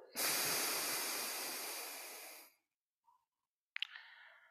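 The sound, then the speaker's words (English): A long, forceful nasal exhale through the right nostril during alternate-nostril breathing: an airy, rushing hiss lasting about two seconds that gradually fades, followed by silence and a couple of faint clicks. “Hold it at the top, switch, and exhale through the right nostril.”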